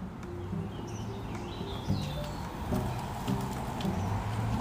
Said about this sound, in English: And all I am hearing right now is the chirping of birds.